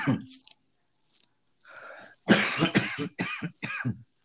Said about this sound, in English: why is it I always got to cough during the podcast, bro?